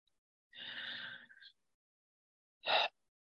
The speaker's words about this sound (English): Let's start by taking 3 deep breaths in and out.